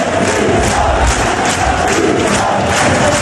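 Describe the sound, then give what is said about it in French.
Rugby crowd roaring during a scrum at a USAP match: a dense, loud, unbroken wall of many voices shouting together to push the home side on. “Ça va pousser derrière moi, vous allez bien l'entendre, soyez-en sûrs, avec tout un public, tout un peuple qui va pousser pour les siens ici.”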